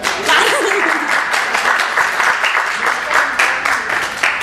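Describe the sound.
Audience applause at a poetry reading and book presentation, dense and steady clapping throughout, with a voice briefly audible near the start.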